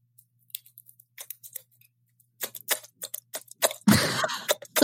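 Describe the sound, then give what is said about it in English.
Sharp, wet tongue clicks made by suction from a flattened tongue. They start sparse and quiet, then come quicker and louder, ending in a dense, noisy burst. “if you can flatten your tongue and you create like a suction with it, you can create like this clicking noise”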